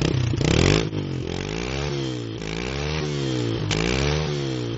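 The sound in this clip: A small Yamaha motorcycle engine that is not yet fully warmed up revs loudly on its own. Its pitch rises and dips in repeated waves over a steady mechanical rumble.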